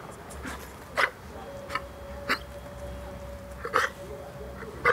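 A dog gulps and hiccups after choking on food it ate too hastily, a few faint, short, sharp bursts spaced irregularly over a quiet background.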